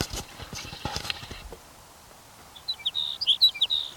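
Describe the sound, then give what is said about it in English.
A sage sparrow sings a brief burst of quick, high, jumbled notes after a stretch of soft, irregular clicking taps. “Here's sage sparrow number 5.”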